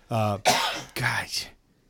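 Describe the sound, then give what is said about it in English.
A lingering cough: three harsh, throaty bursts in quick succession, loud and rough, then silence. “No, that's just a lingering cough.”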